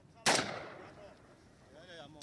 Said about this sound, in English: Just keeps firing. Even though they're dead bodies, this guy just wants to shoot them.